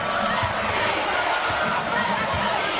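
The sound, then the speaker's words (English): Basketball dribbled during a college basketball game: a steady run of dull, thudding bounces under loud, continuous crowd noise, with talking. “Now dribbling with the right hand.”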